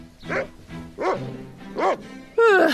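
Dogs bark in four short, high, yelping bursts with pauses between them, the last one loudest and most excited.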